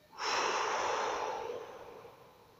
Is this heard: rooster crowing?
no

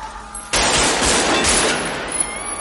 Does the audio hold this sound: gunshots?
yes

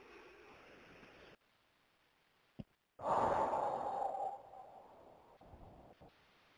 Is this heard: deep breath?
yes

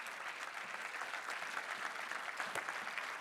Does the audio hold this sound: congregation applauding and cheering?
yes

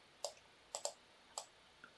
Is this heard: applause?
no

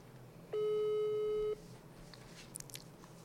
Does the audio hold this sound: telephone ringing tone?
yes

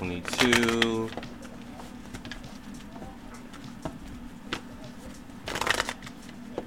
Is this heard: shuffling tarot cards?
yes

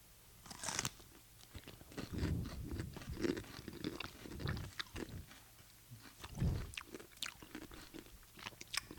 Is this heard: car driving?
no

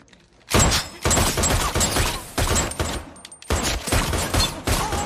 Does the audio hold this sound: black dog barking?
no

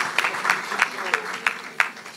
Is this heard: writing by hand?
no

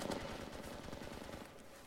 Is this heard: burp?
no

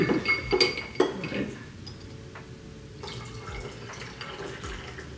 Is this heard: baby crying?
no

